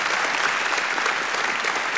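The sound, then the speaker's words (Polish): Audience applause at a folk music competition award ceremony, a thick, continuous clatter of many hands, moderately loud and steady from start to finish. “Wielkie brawa.”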